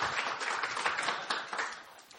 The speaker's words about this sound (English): Let's give this round of applause for this man。 咁咧就即係大家向鼓掌。